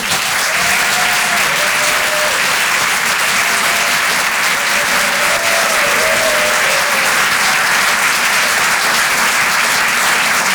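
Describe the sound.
An audience at a comedy show gives loud, continuous applause with a few cheers rising above the clapping.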